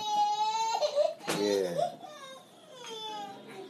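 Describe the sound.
A baby boy cries and fusses for his pacifier in a few high, wavering wails separated by short catches of breath. The crying fades to softer whimpering near the end.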